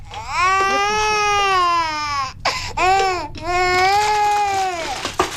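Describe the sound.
A hungry baby cries in loud, high, wavering wails, a few long sobbing cries broken by brief catches of breath, with no adult talking during the crying.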